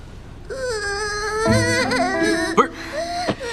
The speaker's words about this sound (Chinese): 他怎么哭了？